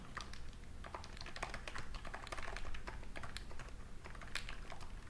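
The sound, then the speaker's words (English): Typing on a computer keyboard: a steady, fast run of many crisp key clicks at an even loudness throughout, with no voices. “This keyboard sounds so good, doesn't it? It's beautiful.”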